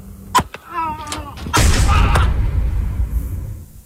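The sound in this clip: Pistol gunshots fired during an argument in a town in Chihuahua: a sharp crack, then a raised, wavering voice, followed by a louder, broader bang and a burst of sustained noise.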